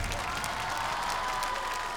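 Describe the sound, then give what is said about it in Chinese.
Faint, steady applause from the audience at an awards ceremony, a continuous patter of clapping that stays at an even level throughout. “掌声祝贺他们！”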